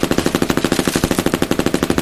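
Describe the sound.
A snub automatic machine pistol fires at a sheet of plywood in one sustained, rapid burst of many shots at an even rhythm, loud and sharp, with no voices.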